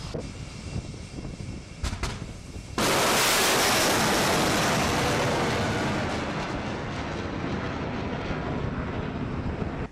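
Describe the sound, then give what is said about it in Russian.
Missile and artillery fire from a naval cruiser during exercises: a low rumble and a couple of sharp cracks give way to a sudden, loud, hissing roar of launch that holds and slowly eases off. “В течение нескольких часов были выполнены пуски всем ракетно-артиллерийским вооружением крейсера.”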